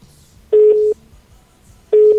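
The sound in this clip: Tone of a dropped phone call: two identical short, steady, mid-pitched beeps, loud and clean, separated by a pause of over a second with faint background hiss between them.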